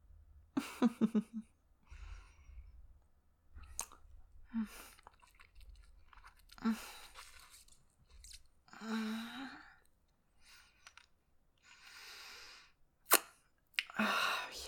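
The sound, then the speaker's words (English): Wet, close mouth sounds imitate a vampire biting in an ASMR roleplay, with soft smacks, slurps and breathy sighs arriving in scattered bursts between stretches of near silence, some sharp and louder. “If it's tingling already, that means I can bite a little harder.”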